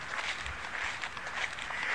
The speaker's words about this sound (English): I'm up on the first level of this hill. Let's see if I can climb up the second level.